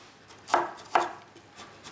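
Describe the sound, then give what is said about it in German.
A knife cuts bell peppers into strips: two crisp, firm chopping strokes close together, followed by a couple of fainter taps. “Die Paprika werden so in Streifen geschnitten.”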